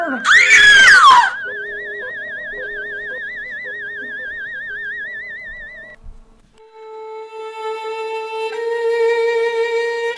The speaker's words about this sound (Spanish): Con este grito termina el tercer episodio